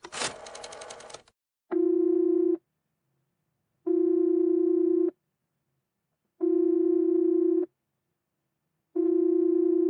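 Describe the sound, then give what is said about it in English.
A telephone busy signal on a line that has been dialed again and again: a short burst of noise, then a steady buzzing tone in four even on-off pulses, loud and alone. “Operator, I've been dialing Murray Hill 70093 now for the last 3/4 of an hour, and the line is always busy.”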